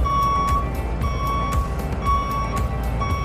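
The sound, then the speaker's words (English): A vehicle sounds its reversing beeps while parking: a steady series of high, evenly spaced electronic beeps over a low engine rumble. “I'm going to wait until that parking noise stops.”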